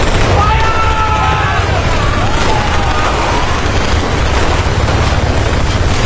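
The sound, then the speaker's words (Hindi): A battle scene with light machine guns, rifles, mortars and grenades: dense, continuous loud gunfire and booming blasts form a constant roar, with faint shouting voices mixed in. “भारतीय सैनिकों ने उन पर light machine gun, rifles, mortar और grenade से हमला कर दिया”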